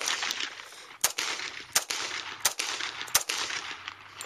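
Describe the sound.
.45 pistol gunshots fired into a daughter's laptop: four sharp, loud cracks at a steady, evenly spaced rhythm over a constant hiss.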